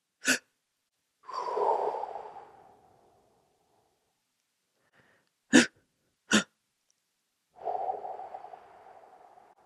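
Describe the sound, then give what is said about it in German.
Breathing exercise of short, sharp inhales, each set followed by a long, breathy exhale. The second round has two quick sniffs before a sustained outbreath. “Und da geht es darum, dass du 2-mal kurz einatmest und dann eine lange Ausatmung hast.”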